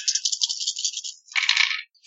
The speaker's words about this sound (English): 3 tens. Jesus. That's not even with wiggle dice. I just rolled that.